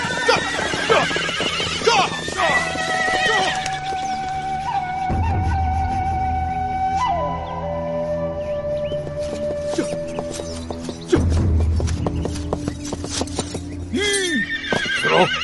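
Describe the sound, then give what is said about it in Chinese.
Horses neighing as they are driven to run: loud, high whinnies that rise and fall, repeating over a clatter of hooves throughout. “快让马都跑起来。”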